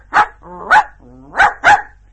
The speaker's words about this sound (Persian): سگ گله هم با صدای بلند پارس کرد،